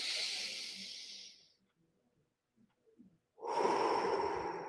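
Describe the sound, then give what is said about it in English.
Slow guided meditation breathing, in through the nose and out through the mouth, during a prayer session: two long, airy, hissing breaths separated by a silent pause. “Now, we're going to breathe in through our nose and breathe out through our mouth.”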